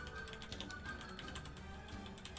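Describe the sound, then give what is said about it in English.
Rapid typing on a computer keyboard, a quiet stream of small clicking keystrokes over a steady background hiss. “I'm just quickly typing in your private chat the names of these.”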